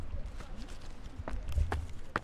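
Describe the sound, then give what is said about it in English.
Imitated footsteps of someone pretending to walk off: a few dull, irregular thumps and taps, fairly quiet. “Don't do the fake walking. They don't fucking know. They wouldn't have known until you said that. You do it as well. Oh, he's just walked off.”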